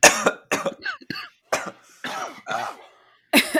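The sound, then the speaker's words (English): Forced, deliberate coughing and throat clearing: a series of sharp, breathy bursts of uneven length with short pauses between them, fairly loud and without talk. “I just wanted to feel included. I didn't really have to cough.”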